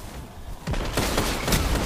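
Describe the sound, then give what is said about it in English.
Gunfire in Destiny 2 or GTA 5 erupts after a quieter moment into a loud, continuous rattling burst of rapid shots that carries on to the end. “You better shoot, dude. You better shoot. You want to live, you better shoot.”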